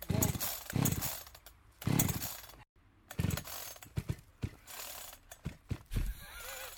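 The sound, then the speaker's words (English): A small carburettor engine is pull-started with several hard yanks on the recoil cord. Each yank makes a loud rasping burst as the engine turns over, and shorter, choppier bursts follow toward the end. “The carburettor. Ah. Starting the engine. Fill fuel, tighten caps. Done. Set the switch to one position.”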